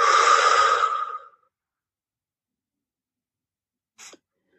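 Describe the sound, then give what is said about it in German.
A deep breath out through the mouth during a breathing exercise: one long, loud, airy exhale that fades after about a second, then silence broken by a tiny soft click. “Atme tief ein durch die Nase und durch den Mund wieder aus.”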